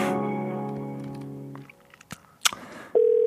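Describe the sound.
A telephone ringback tone heard while placing a call: a buzzy harmonic hum fades out, a few soft clicks and taps follow, then a steady, clear mid-pitched tone begins near the end.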